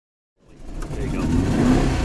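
A 1963 356B car engine revs up after a brief silence, its low, rough rumble swelling steadily louder and holding strong to the end, with no voices.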